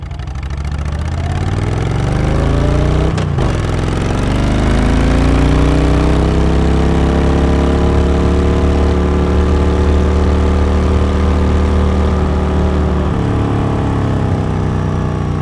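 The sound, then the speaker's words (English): Steady, loud engine drone of a motorcycle cruising down a highway at about 60 mph, with layered harmonics and dense road and wind rush throughout, broken by one sharp brief transient early on. “So I will add a recording of my motorcycle rolling down the highway at about 60 miles an hour.”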